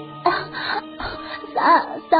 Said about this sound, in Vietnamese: Cô bỏ dậy ho húng hắng.